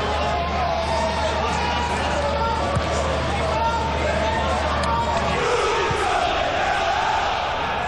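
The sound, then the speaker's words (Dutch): Travelling football fans chanting and cheering on their team at a Belgian league match make a dense, continuous crowd roar, with a commentator talking over it. “Hoort de meegereisde fans. Vuren hun team aan.”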